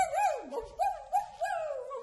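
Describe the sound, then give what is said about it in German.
A voice imitates a dog howling in a few wavering, whiny wails with sliding pitch, including an early downward dip and later rising and falling pulses, mid-pitched and fairly loud, with no other talk. “Und ich könnte jaulen, so.”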